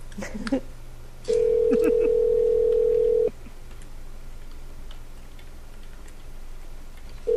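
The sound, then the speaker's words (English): A telephone ringback tone plays while a call waits to be answered: one steady, mid-pitched tone lasting about two seconds, a pause with faint background hum, then the next tone beginning at the end. “Come on, Rappy, pick up.”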